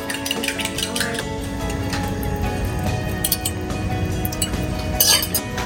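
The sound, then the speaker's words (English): Light clinking of a utensil against cookware while scrambled eggs are made for a breakfast wrap: many quick, bright taps and chinks over a steady low kitchen background. “Okay, now we're gonna make some scrambled eggs.”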